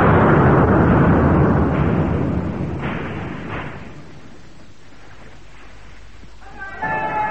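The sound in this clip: A ship's cannon fires at a fort with a loud, deep booming roar that rolls on as a long rumble and slowly fades over several seconds, with no voices over it.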